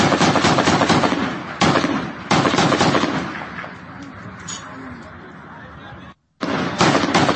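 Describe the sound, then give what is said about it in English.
Small arms fire aimed at helicopters: many rapid, crackling shots in dense bursts, sometimes thinning out, with a brief dead stop before the firing resumes. “But you can see helicopters off in the distance and small arms fire at them.”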